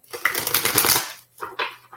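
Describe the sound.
Playing cards being shuffled by hand during a card reading: a quick, dense riffle of crisp clicks for about a second, followed by a few fainter, brief rustles.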